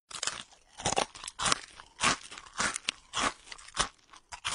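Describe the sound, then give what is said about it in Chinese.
Crisp crunching of someone biting and chewing crunchy food such as apples or potato chips: many loud, dry crunches in an uneven rhythm, heard alone without talk. “通过清脆的声音，吃苹果、吃薯片之类的。”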